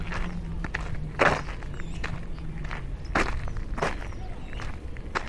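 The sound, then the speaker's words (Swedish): Footsteps of a person walking sound as a few irregular, soft thuds and scuffs over a steady low background hum. “Ja, men jag börjar gå då. Går jag ner till familjen.”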